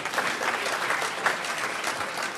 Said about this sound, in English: That's where you're supposed to clap. Yeah, that's right.